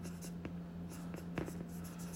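Handwriting strokes: faint, soft scratching of writing over a steady low hum, with a few sharper marks standing out.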